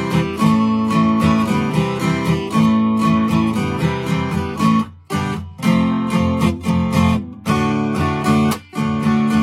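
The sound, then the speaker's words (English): An acoustic guitar plays a song intro in standard tuning in the key of D major. Chords are strummed in a steady down-up rhythm, with a few brief pauses between phrases. “But we're just going to do it in standard tuning. Let me play you the intro. It'll sound like this,”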